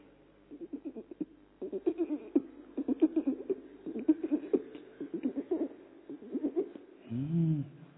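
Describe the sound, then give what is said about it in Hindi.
A pigeon coos in low, soft throaty pulses grouped in short repeated bursts. A longer, swelling coo comes near the end. The whole clip is faint and quiet. “कबूतर अंदर ही अंदर कैसे गुटरगू कर रहा, देखिए”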